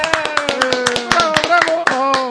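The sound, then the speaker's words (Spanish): Hand clapping from a few people in thanks to an executive producer on a comics talk show: many sharp, irregular claps, with people talking over them the whole time. “Así todo un gracias, aplauso”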